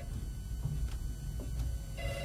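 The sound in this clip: A telephone rings faintly through a steady hiss of background noise, its tone barely rising above the constant noise floor.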